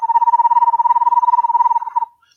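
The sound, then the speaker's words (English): A voice imitating toads and frogs croaking in the water: one sustained, rapidly pulsing trill at a steady pitch, lasting about two seconds before it breaks up and fades. “I got to get a bigger breath, but that's what the toads and frogs do in the water, you know, calling their girlfriends.”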